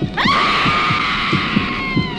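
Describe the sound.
A loud, shrill scream from a horror film trailer. It rises sharply at the onset, then holds a steady high pitch for nearly two seconds.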